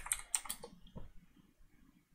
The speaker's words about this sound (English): Let's type in Florida. See if it nails it down.